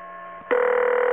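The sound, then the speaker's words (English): Telephone tones as a call dials into a VoIP conference line: quiet tones give way to a loud, steady electronic tone that holds to the end. “It is now time for SDF Open VoIP Please dial 1088 to join the conversation.”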